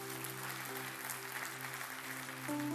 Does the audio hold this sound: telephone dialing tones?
no